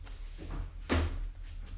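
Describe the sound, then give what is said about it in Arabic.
A door opens in a radio drama, marked by a single soft thunk near the middle over a low, steady hum. “افتح له الباب.”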